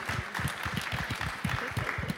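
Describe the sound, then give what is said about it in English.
An audience applauds at the close of a talk, with many steady, fairly soft claps repeating quickly throughout. “Round of applause for yourselves, please.”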